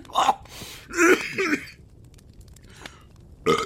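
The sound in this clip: A person coughing and clearing their throat after a drink of Fireball went down the wrong pipe: harsh, choked bursts, a quieter wheezy pause, then one more sharp cough.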